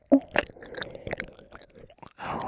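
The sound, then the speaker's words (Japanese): Wet licking and slurping mouth sounds, with a few sharp smacks at the start, then a steady soft squelching texture and a slightly louder wet burst at the end, with no talk. “舐めても舐めてもどんどん溢れ出てくる。”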